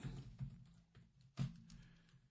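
Keystrokes on a computer keyboard during a Bible reading session: a few soft, scattered clicks at uneven intervals, quiet and without talking.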